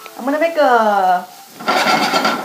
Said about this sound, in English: so the pan is still ripping hot. Oops. And I'm actually turning it down now. Because the fish sauce has caramelized.